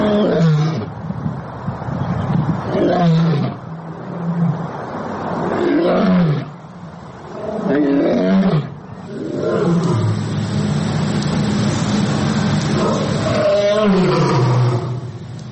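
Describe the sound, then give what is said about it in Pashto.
Sick lions at the Lahore safari park roar in a loud series of deep, rumbling calls with grunting breaks between them. “مریم اورنګزیب وویل چې دا زمریان د پنجاب له مختلفو سیمو د څارویو د ډاکټرانو د لارښوونې له مخې سفاری پارک ته راوړل شوي وو او د دې زمریانو صحت ښه نه و.”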